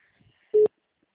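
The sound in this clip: A telephone tone sounds as a call is placed: one brief, steady, mid-pitched beep that is loud against near silence and lasts a fraction of a second.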